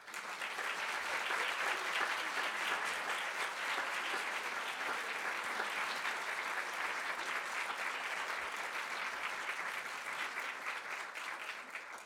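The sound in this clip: Audience applause welcomes guest speakers at a Friends of the Library event: steady, dense clapping holds for about twelve seconds and eases slightly near the end.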